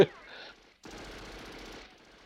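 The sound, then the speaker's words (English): A fully automatic gun fires as it sprays across a lawn. One sustained rapid burst of about a second follows a short opening noise and a pause, and it sounds fairly faint. “There's one guy shooting a bloody fully automatic gun. I think they know where he is. He's just spraying the lawn.”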